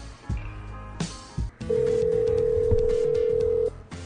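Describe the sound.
A telephone call ringing on the line: a few soft clicks and thumps, then one steady, even ring tone that holds for about two seconds before cutting off.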